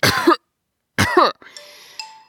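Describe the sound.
Throat clearing by a raspy-voiced gnome with something stuck in his throat: two short, gruff voiced bursts separated by silence, followed by a quieter steady ringing tone.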